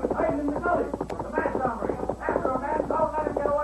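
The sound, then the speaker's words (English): Hoofbeats of a great white stallion galloping at a fast pace along a gully, a radio drama effect with a rapid, steady clip-clop rhythm running beneath a voice speaking throughout. “The Lone Ranger rode the great white stallion Silver at a fast pace along the gully.”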